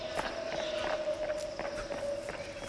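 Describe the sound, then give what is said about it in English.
Footsteps running quickly up a gravel path, many crisp, crunching steps in a fast, fairly even rhythm over a steady hiss and a constant faint tone. “Running quickly up the gravel path, Alfred nearly tripped over the speed ramps his uncle had recently installed.”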